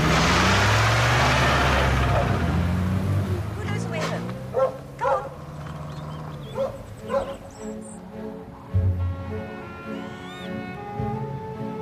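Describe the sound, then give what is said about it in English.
Three black Labradors jumping out of a car bark, yip and whimper in a few sharp bursts scattered over a low, steady rumble. “and the three black Labradors jump out.”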